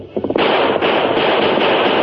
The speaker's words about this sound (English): We'll keep just out of range until he empties his other gun. He won't be able to reload while he's leading their second horse.